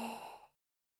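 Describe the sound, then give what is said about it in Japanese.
A slow, deep breath drawn in during a guided relaxation exercise: one soft, breathy whoosh of about half a second that fades quickly into silence. “ほら、軽く呼吸を整えてから、始めるよ。ゆっくりと息を吸って、”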